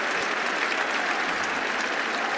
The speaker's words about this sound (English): Round of applause from the crowd.